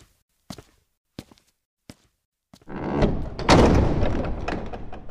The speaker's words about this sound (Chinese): 北阙阁的殿门被重新打开